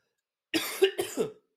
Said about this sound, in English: I knew I wouldn't be able to get through this without coughing a little bit.